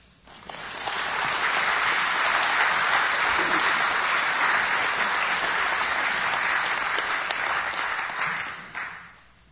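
Audience applause welcoming missionaries who served in Afghanistan, Uzbekistan and Pakistan: steady, dense clapping that swells quickly, holds at an even loudness for several seconds, then tapers off near the end.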